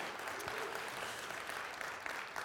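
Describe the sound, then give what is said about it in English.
Sustained, even applause from a church audience clapping in appreciation for a man, many hands together at a moderate, steady level. “So anyways, let's show his our appreciation for him. Just give him a round of applause.”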